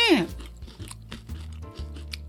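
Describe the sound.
Crunchy biting and chewing of a chocolate-coated puff pastry: a sharp bite at the start, then many soft, rhythmic munching crunches at moderate loudness.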